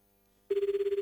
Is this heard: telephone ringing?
yes